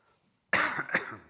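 A short, rough cough from a scratchy throat, two quick raspy bursts after silence, with no talking.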